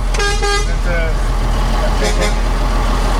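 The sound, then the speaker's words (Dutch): Horn toots and engine rumble from an 18-wheel truck driving slowly out of Emmen at the head of a following convoy; a few harmonic horn blasts ring out early over a steady, loud rumble. “Ja, we rijden nu langzaam Emmen uit.”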